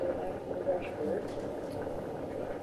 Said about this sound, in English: So that's wind coming off the ocean? Yes.